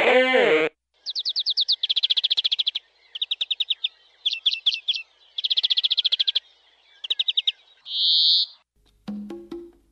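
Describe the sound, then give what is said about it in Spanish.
Birds singing in a lively series of high, rapid chirps and trills, each phrase separated by short pauses. A brief lower, harsher call follows near the end. “Hablar del canto de las aves. Se denomina canto de aves a los sonidos vocales que las aves emiten”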